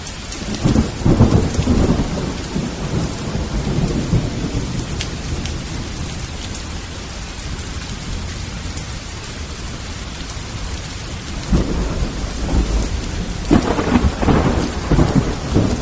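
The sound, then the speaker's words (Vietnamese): Heavy rain falls with a constant hiss, and deep rumbling thunder swells near the start and again toward the end. No voices are heard. “Bốn bề yên tĩnh lạ thường, chỉ nghe thấy tiếng gió thổi mưa rơi.”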